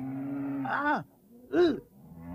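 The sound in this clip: A cow moos with a low, drawn-out call whose pitch slides downward, followed after a short pause by a second, shorter moo that also falls in pitch.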